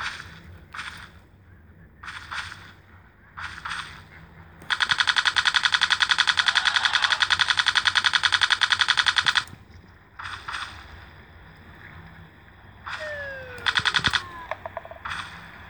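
Rapid automatic machine-gun fire in a video game, triggered by holding down the fire key: several short loud bursts, then one long continuous stream of shots lasting several seconds, followed by more short bursts.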